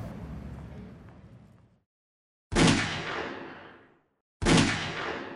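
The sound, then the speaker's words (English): Gunshots at a firing range: loud, booming blasts, each trailing into a long fading echo, with two full shots after the tail of an earlier one that is already dying away, separated by brief silence. “Firing range never really was my style”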